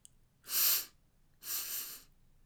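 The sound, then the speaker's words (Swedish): Two hissing breaths are drawn in deeply through the nose, each about half a second long with a short pause between. The second is softer and slightly longer. “Don Quixote drar ett djupt andetag genom näsan”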